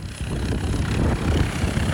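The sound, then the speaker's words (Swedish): An ambulance helicopter lands at an airport: a dense, steady roar of rotor and wind noise, with no voices. “Vad är det vi hör? Ja, det är ju ambulanshelikopter som landar här på Karlstads flygplats.”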